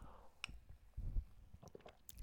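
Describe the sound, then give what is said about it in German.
A man pauses to take a drink. Quiet wet sips and swallows come with a faint click, soft and brief, with no talk over them. “Ich muss mal kurz was trinken.”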